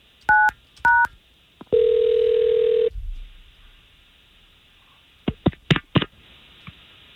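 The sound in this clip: Two short telephone keypad dialing beeps sound, then a steady tone lasts about a second before cutting off. After a pause come several sharp clicks and taps.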